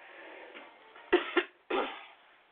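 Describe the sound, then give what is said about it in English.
A person with a dry throat coughs three times, two short sharp coughs close together followed by a longer, rougher one, standing alone with no talk around them. “So just excuse me if I cough in between time. I didn't bring me any fluid, so my throat is rather dry.”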